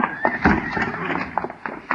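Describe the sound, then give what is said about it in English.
Loose draft horses neigh after escaping from a corral, with sharp whinnies and a few hoof clops. Voices are heard alongside the animals. “Somebody open the corral gate. All my draft horses are loose.”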